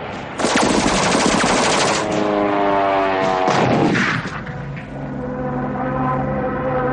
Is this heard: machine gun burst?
yes